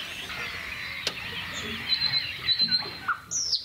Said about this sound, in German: Da ist die Nachtigall.